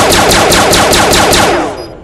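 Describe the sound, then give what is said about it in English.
A needle launcher weapon in a video game fires continuously: a loud, rapid, evenly spaced string of sharp shots that ends in a short fading tail. “Just to show you something real quick, weapon, though. Needle launcher. This is our new weapon.”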